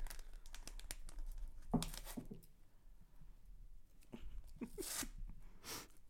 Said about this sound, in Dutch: Ja, alleen het uitpakken hiervan is wel wat lastiger.